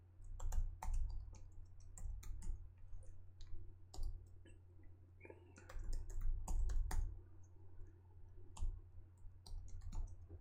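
Typing on a computer keyboard: faint, irregular clicking keystrokes in quick bursts with short pauses, over a steady low hum.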